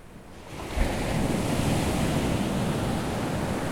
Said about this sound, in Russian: Это океан.